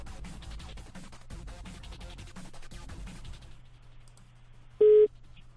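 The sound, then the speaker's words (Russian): A telephone tone sounds while calling someone back: after several seconds of soft rustling and clicking, one short, clear electronic beep rings out near the end. “Сейчас ему перезвоню.”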